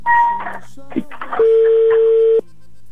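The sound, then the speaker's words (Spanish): Telephone being dialed: a few short keypad tones, then a long, loud steady beep lasting about a second before it cuts off, with a voice heard faintly between the tones. “Voy marcando, ¿eh? A ver si tenemos suerte. Gracias. Estoy marcando.”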